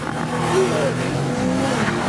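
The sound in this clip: Engine roaring as a 659-horsepower sports car launches hard using launch control: loud, sustained, dense engine noise for the whole stretch, with no break or pause.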